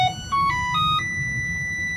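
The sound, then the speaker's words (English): A Whirlpool front-loading washer plays its electronic melody: a few pure, bright beep notes in quick succession, the last held for about a second over a low background hum. “And here is the sound of a Whirlpool front loading washer.”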